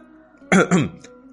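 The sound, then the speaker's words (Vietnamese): A dry cough: two short, harsh throat bursts in quick succession, followed by a faint brief trailing sound, over a quiet background. “Tiêu Thạch ho khan một tiếng chen lời vào”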